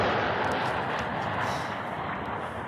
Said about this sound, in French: Installez-vous bien au fond de vos sièges, décollage immédiat.